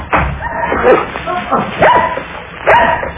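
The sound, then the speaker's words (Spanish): Dogs barking at a house as intruders climb over its wall: a few loud, sharp barks and yips in separate bursts, with a whining edge. “Los perros han delatado nuestra presencia.”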